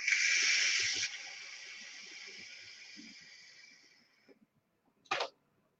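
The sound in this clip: A long, loud hissing exhale of e-cigarette vapour from a Lost Vape Lyra device, gradually fading over about four seconds, followed after a short pause by one brief, sharp puff of air.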